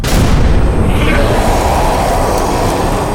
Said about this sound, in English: Light him with a flash grenade. Right. 3, 2, 1.